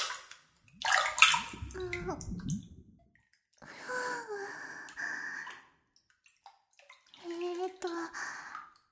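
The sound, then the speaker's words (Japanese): Hot bath water sloshing and swishing as a fully clothed person gets in, in three bursts separated by quiet pauses, with soft breathy vocal sounds. “脱がなくっていいって、服着たままお湯に入るんですか？”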